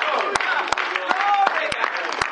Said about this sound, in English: So clap your hands, all you people. Shout unto God.